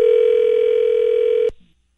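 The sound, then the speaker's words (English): A single steady telephone tone sounds as a call is transferred to voicemail. It holds an even mid pitch for about a second and a half, then cuts off abruptly into silence. “He's on another line right now. So let me put you through to his voicemail, okay?”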